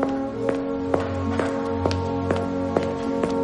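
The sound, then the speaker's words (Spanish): Footsteps walking through a tunnel: a steady, evenly spaced series of firm footfalls at a relaxed walking pace over a sustained tonal background. “Camina por un túnel.”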